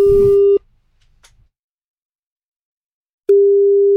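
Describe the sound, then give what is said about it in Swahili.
A telephone ringback tone sounds while a call is placed. One steady, even tone burst plays at the start and a second returns near the end, with silence between them. “Nampigia simu, anaitwa Official Yashri”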